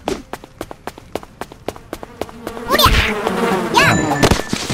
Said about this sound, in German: Die ist mir entwischt. Die blöde Biene.